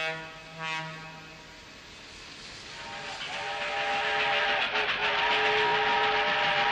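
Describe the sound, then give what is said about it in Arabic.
A fast train running with its whistle: a short whistle blast near the start, then a rolling rail rumble that swells steadily louder, with sustained tones over it. “يلا نركب هذا القطار السريع”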